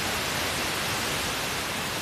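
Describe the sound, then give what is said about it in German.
Steady, even radio static hiss from an FM radio tuned by its dial to 90.25 MHz, where no station comes in. The hiss stays constant and alone throughout. “Ich drehe jetzt hier am rechten Sendersuchrad. Sie hören 90,25 MHz. Genau, dann kriege ich halt unter Umständen nur Rauschen.”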